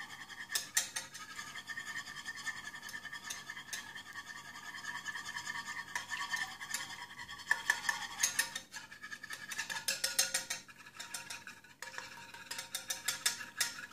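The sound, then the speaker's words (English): A whisk scrapes and clicks around a bowl of melting coconut oil for homemade shaving cream, in faint, rapid, irregular bursts of metallic tapping and scratching. “and start whisking it around. As you can see, the coconut oil starts to melt and desolidify.”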